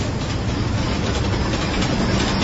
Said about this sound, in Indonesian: pas setelah kereta itu lewat, kali ini dari kejauhan